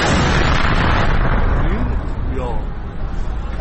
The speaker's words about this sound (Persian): این صدای انفجاری بود که شنبه 8 بهمن کمی قبل از نیمه شب در اصفهان شنیده شد.